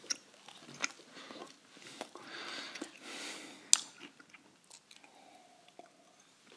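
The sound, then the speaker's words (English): Breakfast being chewed: faint crunching bites and moist, squishy mastication, with a few sharp crunches standing out among softer, irregular chewing. “Nourishment and the sound of breakfast.”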